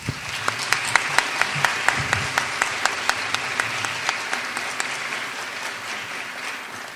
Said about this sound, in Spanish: Bien, agradecemos al Padre Fuentes con un fuerte aplauso.